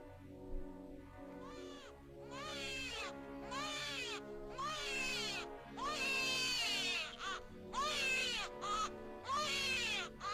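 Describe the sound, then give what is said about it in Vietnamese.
A newborn baby cries in a delivery room, with loud, high, wavering wails that repeat in many short bursts with brief breaths between them. No other voices are heard. “độ vài tiếng sau thì trong phòng có tiếng khóc ré lên.”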